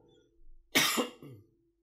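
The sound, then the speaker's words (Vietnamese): Coughing from a person with phlegm in the throat: a few short, harsh, fairly loud coughs in quick succession, each a sharp burst that dies away quickly into silence. “Xin lỗi, bệnh còn hơi đàm trong họng nên hay ho.”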